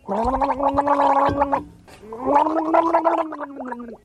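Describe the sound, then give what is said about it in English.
Gargling sound effect: throaty, bubbling gurgles in two long bursts separated by a short break, rough and loud throughout, with no speech over it. “It's gargling.”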